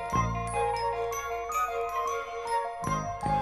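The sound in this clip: An orchestral horror-film theme plays as a bright, chiming bell-like figure, with tinkling notes repeating in a steady rhythmic pattern over a sustained lower tone.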